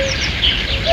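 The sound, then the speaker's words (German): A common cuckoo calls in brief, hollow, clear tonal notes that stand out faintly over a steady background hiss. “Erkannt? Natürlich, das ist der Kuckuck. In diesen Tagen könnte der Vogel nämlich aus seinem Winterquartier in Afrika wieder zurückkommen”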